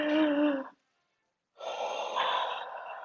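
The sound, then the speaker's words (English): A person draws a long, deep breath, a hissing, airy intake lasting over a second. It comes after a short voiced sound and a brief silence. “First of all, take a deep breath.”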